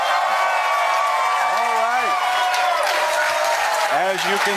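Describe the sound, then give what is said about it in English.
A live conference audience cheers and applauds loudly and continuously, with shouting voices rising briefly out of the dense crowd noise. “As you can tell, a very live audience geared up and ready to go”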